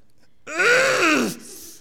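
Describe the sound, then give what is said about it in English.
A voice imitates a child's whining cry: one drawn-out, wailing note of about a second with strong harmonics, holding fairly steady and then sagging downward in pitch at the end, heard alone. “it really irritates me when he whines, especially when the whining is accompanied by a cry.”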